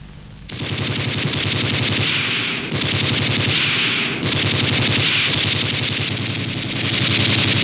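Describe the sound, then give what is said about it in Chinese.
Gunfire in a sustained, dense stretch of rapid shots, loud and harsh throughout, swelling and dipping slightly. No speech is heard. “你为什么开枪？”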